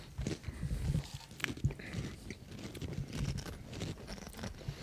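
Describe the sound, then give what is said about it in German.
Crunching of honey mustard flavoured crisps being eaten, with many quick, crisp bites and chews in an irregular rhythm, fairly faint and without talk. “Naja, wir essen Chips und andere Sachen.”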